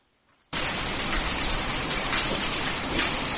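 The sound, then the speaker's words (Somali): Heavy rain pours over the city of Djibouti and its surrounding districts. After a brief quiet moment, a dense, even hiss starts abruptly and holds steady throughout. “Roobka ayaa weli ka sii daaya magaalada Jabuuti iyo degmooyinka kale,”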